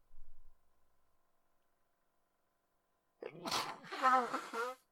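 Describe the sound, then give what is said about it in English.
A sneeze bursts out after a long near-silent stretch, loud and voiced, with a sharp breathy attack that trails off over a second or so. “Apologies for the sneezing”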